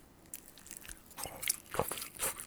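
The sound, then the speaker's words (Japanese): Soft crunching bites into smoked grilled cheese with a browned, toasted surface, served on two skewers; a few faint, crisp bites and chewing sounds spread across the quiet clip. “こんがりと表面がこれ焼き目がついた焼きチーズ、これ燻製になってるんですね。でちょうど2本串が刺さってるというような感じなんですけども、ちょっといってみましょうか。焼きチーズです。”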